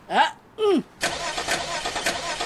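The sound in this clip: A car engine starting: two brief whining bursts, then the engine catches and settles into a steady, even running rumble.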